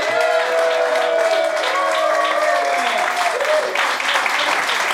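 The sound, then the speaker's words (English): Audience clapping for a comedian at a stand-up show, a full continuous round of applause with voices calling out above the clapping. “Ladies and gentlemen, put your hands together for Terrence DeLane.”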